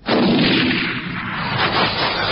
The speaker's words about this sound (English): Shotgun!